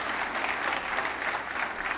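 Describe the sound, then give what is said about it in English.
Congregation clapping during a church service: dense, steady applause from many hands, loud and continuous throughout, with no voices standing out. “Give it one more good clap offering.”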